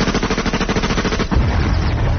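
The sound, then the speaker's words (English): Gunfire from someone shooting at a Red Admiral butterfly: a fast, even run of sharp reports lasting just over a second, then a rougher, denser burst. “Hey, Bismarck! Good shooting, what?”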